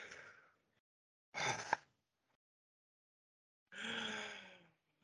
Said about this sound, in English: Everybody, let's take a deep breath and be satisfied.